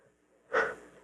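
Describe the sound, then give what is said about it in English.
A person exhales once after drawing in a breath, a short breathy burst of air that swells quickly and then tails off, with near silence before it and no talk. “My lungs are being filled, and then I exhale.”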